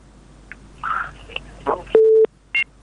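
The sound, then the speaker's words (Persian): A telephone busy tone sounds after a caller's line is cut off during a call-in: a long, steady electronic beep followed by a shorter one, clear and loud after some scattered clicks and noise. “بله تماس از اینا قطع شد، میشه یک شنونده دیگه رو بگیریم.”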